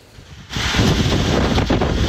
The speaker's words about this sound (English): Saturday overnight, heavy winds from Hurricane Lala whipped across much of Hawaii, sending water gushing out of Rainbow Falls and Hilo, captured in this footage, battering parts of Hawaii's Big Island